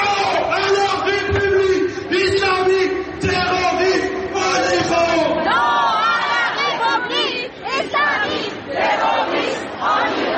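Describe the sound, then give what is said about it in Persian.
Protesters chant slogans while marching through Paris from Place de la Bastille to the city hall. A loud unison chorus of many voices repeats phrases, then breaks into more ragged shouting and crowd noise. “هزاران تن در حالی که شعار می‌دادند و نمادهایی از مهسا و دیگر جان باختگان اعتراضات را در دست یا بر سر داشتند، از میدان باستیل تا شهرداری مرکزی پاریس راه پیمایی کردند.”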